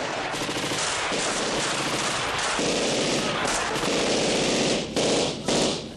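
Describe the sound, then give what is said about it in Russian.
Sustained gunfire from a carbine, a pistol and a machine gun makes a dense, loud stream of overlapping shots with barely a pause. Two short dips break it near the end. “Также стреляли трое мужчин из карабина, пистолета и пулемета.”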